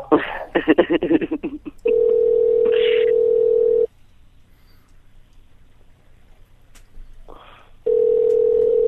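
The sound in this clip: Telephone dial tone while placing a prank call to a convenience store: a brief stretch of talk, then a loud, steady tone for about two seconds, a near-silent pause, and the same tone returning at the end.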